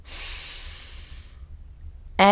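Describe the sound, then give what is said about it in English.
A deep breath drawn in through the nose and mouth, heard alone as a long, soft hissing inhale that fades out over about a second, followed by a stretch of near silence before a voice abruptly starts at the very end. “I want you to close your eyes for a second and take a deep breath.”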